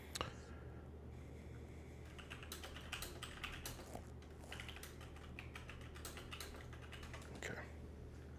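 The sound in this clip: Rapid typing on a computer keyboard while entering a Google search: many quick, uneven key clicks, quiet and continuous throughout.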